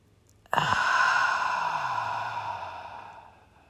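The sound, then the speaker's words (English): One slow, deep breath out during a guided breathing exercise: a breathy exhale starts abruptly and fades gradually over about three seconds. “Let's take another couple deep breaths together, and let's breathe all the way out on the exhale.”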